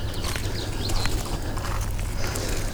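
Footsteps of people walking carefully outdoors on a steep, dry slope: soft, irregular crunches and scuffs blend into a steady noisy background.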